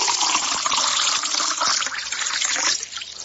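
Spring water from the Fonte dos Gonçalves is poured into a glass in a steady, splashy trickle that runs almost without a break and eases slightly near the end.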